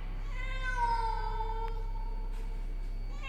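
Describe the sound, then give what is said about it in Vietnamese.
A black cat meowing at night: one long, drawn-out meow that starts higher and sinks in pitch, heard alone over a steady low hum. “tấm di ảnh của chị Hiền vang lên tiếng mèo kêu”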